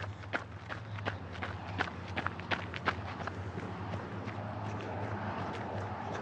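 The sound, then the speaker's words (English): Running footsteps as a runner moves onto grass, quick irregular soft thuds over a steady low hum, fading after about three seconds. “As I ran onto the grass to get past another group of chatting walkers.”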